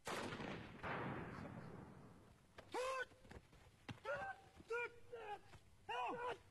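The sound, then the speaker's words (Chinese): Heavy, booming gunfire rings out during an armed police special-operations drill in the rain at a high-altitude field training ground 3,500 m up. Several rumbling bursts fill the opening seconds, then a man speaks. “官兵们正在冒雨进行防空演练。在突破300米障碍后，对两伙暴恐分子实施围捕和狙击。”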